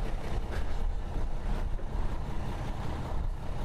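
A city bus on a street gives a steady, broad engine rumble and road noise that holds evenly throughout, with no voices.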